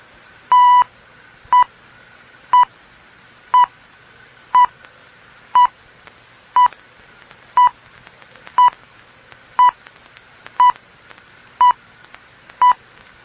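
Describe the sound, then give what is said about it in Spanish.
Radio time signal beeps from Ecuador's official time station HD2IOA of the navy's Oceanographic Institute in Guayaquil: thirteen short, identical high-pitched tones at a steady one-per-second rhythm, the first slightly longer, alone against faint background hiss. “Al oír el tono serán las 16 horas. 59 minutos. 0 segundos.”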